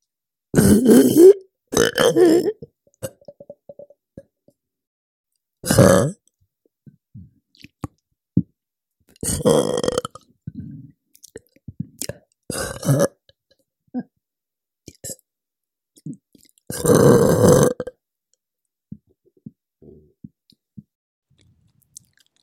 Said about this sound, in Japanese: 私の体内で空気が動く音、聞いてごらん。